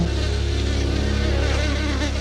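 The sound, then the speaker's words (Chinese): Hornets buzz as they swarm out together to defend an invaded nest, making a dense, loud, continuous drone with no voices. “若蜂巢遭到入侵，胡蜂会集体出动，清除威胁”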